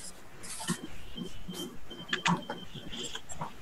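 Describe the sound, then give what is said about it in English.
A gate opening from a hedge: faint creaking and squeaking with thin high tones come in short, irregular bursts over a low, rough background. “A gate has just opened from the hedge somewhere nearby.”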